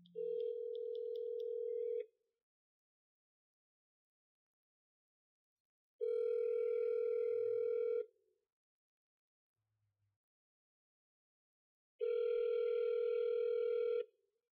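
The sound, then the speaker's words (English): Ringback tone on a phone line after a number is dialed: three long, steady buzzing tones of about two seconds each, separated by even silent gaps of roughly four seconds, with no talking. “A lot of ringing.”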